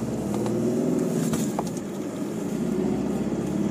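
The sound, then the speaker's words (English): Steady engine and road rumble from an old vehicle bouncing down a muddy road, a continuous low drone that holds at an even loudness throughout, with no talk over it. “we're doing a podcast while I'm driving. Multitasking. You're getting a lot of background noise, it's the old trot bouncing down the road.”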